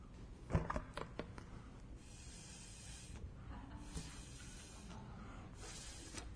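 Breath blown steadily through a drinking straw during a church sermon demonstration makes a soft, airy hiss that lasts several seconds, after a few brief knocks at the start.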